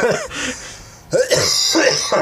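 A person coughs in a few harsh, raspy bursts separated by short pauses, with a throat-clearing quality and some vocal sound between the coughs.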